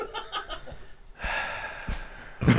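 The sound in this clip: A deep breath drawn in a casual group conversation, a long, breathy rush lasting about a second, framed by shorter, softer breath sounds and a louder burst at the very end.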